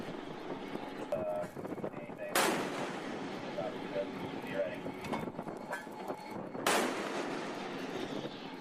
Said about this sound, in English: We're prepared to subject you to disabling fire.